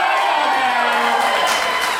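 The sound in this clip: One section of a live show's audience cheers and whoops loudly in a continuous, dense crowd roar, with shouting voices rising above it throughout.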